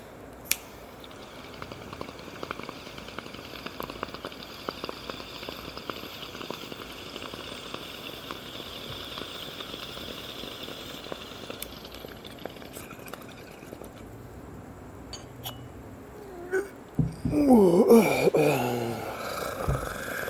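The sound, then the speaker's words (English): Someone takes a hit from a smoking bowl on a newly acquired piece. A long, quiet stretch of faint ticks and crackle leads into a short, louder burst of gurgling bubbles near the end. “Alright, I'm going to take a hit of this bowl.”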